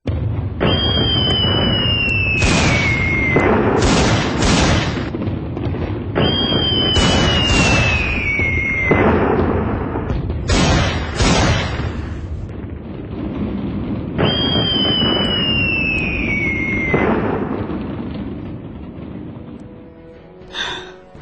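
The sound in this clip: Dramatised gunshot sound effect: three descending whistling tones, each followed by several sharp, loud blasts, repeating across the passage.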